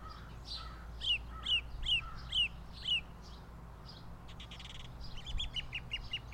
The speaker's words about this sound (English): The common northern cardinal can say, "This means I'm hungry. The children are hungry. Bring food."